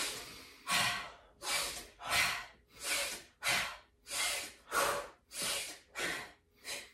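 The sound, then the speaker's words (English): Slow, deliberate breathing in through the nose and out through the mouth during a guided exercise: a steady series of about ten airy breath bursts, evenly paced with short gaps between them, clear and alone with no talking. “in through the nose and out through the mouth.”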